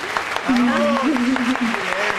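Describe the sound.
An athlete is applauded as people stand up to clap. A steady burst of clapping runs underneath a speaking voice.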